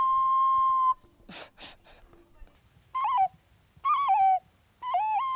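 An ocarina necklace, a junk-find treasure, gives a pure, flute-like tone: first one long steady note, then a few breathy puffs, then three short phrases of stepped notes separated by silence.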